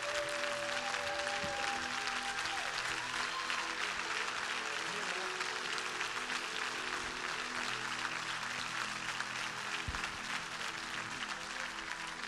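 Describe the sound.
An audience applauds to welcome a speaker as he comes up to share the word on a Sunday morning. The clapping is steady, loud and dense, holding an even level for the whole stretch without pause.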